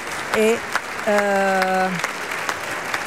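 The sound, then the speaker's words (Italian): A theatre audience applauds as the cast steps forward for a second curtain call. Steady clapping runs underneath while a voice rises above it twice with drawn-out calls. “e tutti quanti adesso si avanzano per la seconda volta a prendere gli applausi del teatro.”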